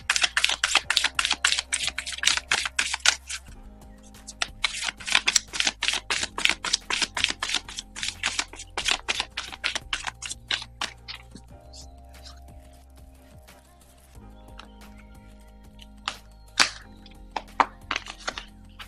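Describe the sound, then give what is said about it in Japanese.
Oracle cards are shuffled and drawn: a long, dense run of crisp flicks and snaps thins out to sparse taps and a few sharper slaps later on, with soft sustained music underneath. “そしてですね、今日のアラクルカード引いていきましょう。”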